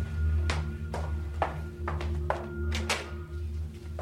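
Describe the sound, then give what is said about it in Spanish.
A woman's footsteps going down a staircase, a series of dull, fairly evenly spaced thuds over a steady low hum. “La madre enciende la luz y baja por las escaleras.”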